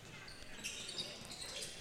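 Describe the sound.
Basketball being dribbled on a court during a high school boys' game, a few faint bounces barely rising above a steady wash of crowd and gym noise.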